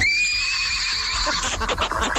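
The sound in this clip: A horse gives one long, high, quavering whinny that holds steady, then breaks into a rougher, noisy tail for the rest of the moment.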